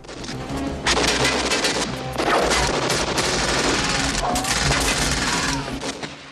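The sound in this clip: Heavy gunfire erupts from all sides in an action-film shootout after two trucks crash head-on. Dense, loud bursts of shots run almost without a break for several seconds.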